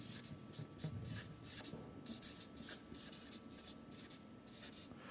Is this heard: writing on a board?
yes